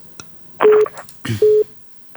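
Telephone line dialing tones: two short, loud, steady beeps, each mixed with clattery handset noise, separated by a brief pause.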